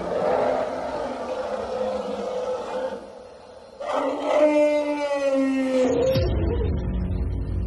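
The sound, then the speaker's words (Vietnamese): A white elephant roars terribly in a courtyard, a thunderous cry full of grief and rage: a long, loud, tonal wail over a noisy background, followed by a deep rumbling swell. “thì đột nhiên con voi trắng ngoài sân gầm rống khủng khiếp, âm thanh như sấm sét, tràn đầy bi ai, căm phẫn.”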